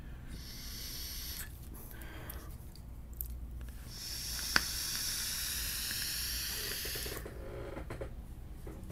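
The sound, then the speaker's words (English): A vape mod fires with its button held down, and the coil gives off a steady crackling sizzle and hiss that runs for several seconds. The sound breaks off briefly a few times and cuts out near the end. “Let me gorilla this button down so I can actually vape on it.”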